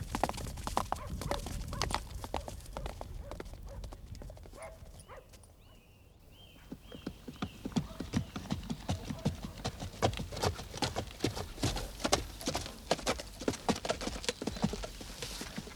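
Hooves clop as horses are ridden out on a wolf hunt, a dense, continuous patter of many hoofbeats that stays fairly quiet throughout and eases briefly around the middle.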